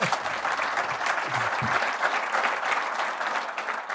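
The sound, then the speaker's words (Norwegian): Applause at a trail-run event at a wildlife farm celebrating record turnout, a continuous, even wash of many hands clapping for four seconds. “Det fortjener applaus.”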